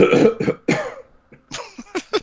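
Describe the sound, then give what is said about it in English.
Coughing and throat clearing from a person, several rough, voiced bursts in two clusters separated by a brief pause. “I was coughing. Sorry.”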